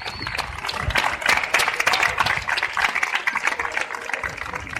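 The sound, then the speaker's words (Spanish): Crowd applause outside a courthouse as defendants walk out: a dense, steady patter of many hands clapping, fairly loud and sustained throughout without a break. “Esta es la salida del juzgado de los 8 de Yesa con aplausos de toda la gente que acudió allí.”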